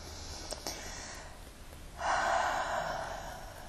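A deep breath during a guided tapping exercise: a soft, airy rush of breathing that swells sharply midway into a sustained, louder inhale and then slowly eases off, with no talking.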